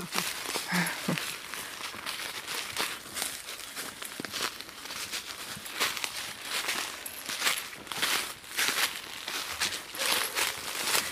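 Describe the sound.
Footsteps crunch through dry leaves left over from winter, a long run of many crackling, rustling steps at an unhurried walking pace, fairly quiet and continuous.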